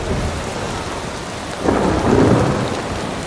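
Steady rain falls at night while a deep roll of thunder swells midway through and rumbles on beneath the continuous patter.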